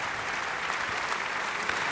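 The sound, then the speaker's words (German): Audience applause after an opera performance, honouring the singer of the title role on stage, heard as a dense, steady wash of clapping at a fairly low level without pauses or voices. “Das ist der Applaus für Georg Niegel, der hier die Titelrolle gesungen hat.”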